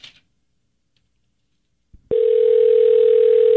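A telephone dial tone sounds after a call is disconnected: a soft click comes first, then the tone starts abruptly and holds loud, steady and unbroken to the end.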